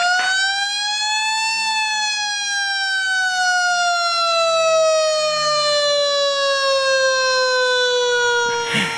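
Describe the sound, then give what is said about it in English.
A loud siren sounds in a single long wail, rising in pitch for the first second and a half and then gliding slowly downward, steady and unbroken throughout. “that is the siren of the drive show today”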